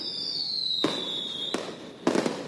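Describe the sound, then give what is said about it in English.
Bottle rockets going off: a thin, high whistle slides slowly down in pitch and is broken by sharp cracking pops, then a quick double pop near the end. “I do love the sound. If anybody doesn't like the sound of a bottle, like, are they called bottle? Do you call them bottle rockets?”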